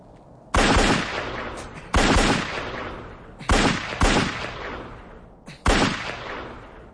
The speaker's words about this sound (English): Now cock the gun, pointing into the ground 3 yards ahead of you. Take up a firing position, keeping the arm straight. Pointing the gun but not aiming it. Fire off one magazine, 2 shots at a time.